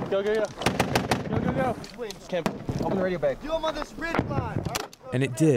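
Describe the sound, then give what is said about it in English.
Gunfire from a U.S. Army unit fighting the Taliban: sharp, cracking shots burst out repeatedly and unevenly, mixed with urgent shouted commands and radio talk. “That's a U.S. Army unit fighting the Taliban.”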